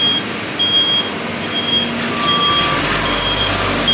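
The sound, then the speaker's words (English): Reversing beeps from vehicles moving among cranes: a few high-pitched pulses repeat at a regular rhythm over a steady low engine rumble. “So there are cranes and vehicles all over the place.”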